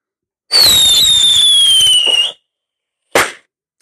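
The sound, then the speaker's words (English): Fireworks rockets going off: one whistling rocket with a loud, steady whistle whose tone slowly falls over nearly two seconds, then a short, sharp crackling burst after a brief gap. “So let the fireworks go up now.”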